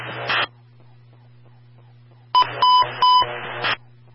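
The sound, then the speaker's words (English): Fire department radio emergency transmission tone test: a brief static burst, then a low steady hum, then a crackling burst carrying a few sharp, steady electronic beeps before cutting off. “Company standby for the emergency transmission tone test.”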